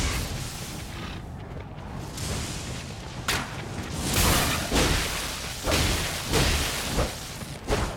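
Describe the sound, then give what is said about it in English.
Whooshes and heavy thuds of a wolf-riding archer shooting arrows in a video game: a few sharp swishing bursts and booming impacts spread unevenly over a low, rumbling background. “The wolf riding archer is shooting at us.”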